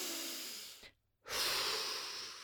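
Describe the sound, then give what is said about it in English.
A person takes a deep breath, a soft, airy rush of air that fades into a brief silence and then resumes as another long breath. Nobody speaks. “Stop. Take a breath.”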